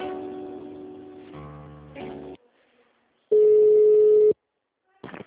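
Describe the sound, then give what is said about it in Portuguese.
Telephone line tones during a call transfer: a burst of layered tonal sound cuts off, then after a gap a steady, loud single-pitched beep holds for about a second before another short sound begins. “um minutinho, por gentileza, que eu vou transferir a ligação.”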